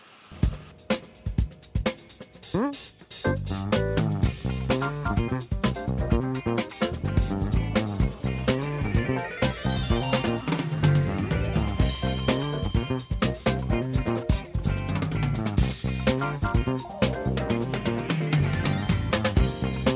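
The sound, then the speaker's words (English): Jazz funk music opens with a few sparse, punchy hits for about three seconds. A full band then kicks in with a driving, syncopated groove of drums, bass and chords, and stays loud and steady to the end. “If you don't know what jazz funk or funk sounds like, well, it sounds a bit like this.”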